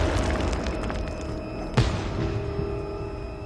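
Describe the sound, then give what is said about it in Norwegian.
A dynamite charge exploding in a forest, heard as a single short, dull blast about halfway through that rises briefly above a steady low rumble with faint sustained tones. “ladning etter ladning drønner gjennom skogen”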